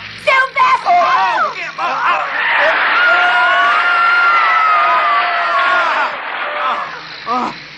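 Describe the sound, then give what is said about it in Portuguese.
Screaming and shouting: choppy shouted voices give way to a long, high, sustained scream that holds steady for several seconds, then a few more shouts break out. “Que diabo, que gritaria! Eu tenho que assustar a todo mundo assim!”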